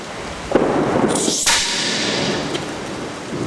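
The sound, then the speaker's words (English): A gun is fired at a target, giving a couple of sharp, whip-like cracks that stand out over a steady outdoor background hiss. “Just pull the trigger. Okay.”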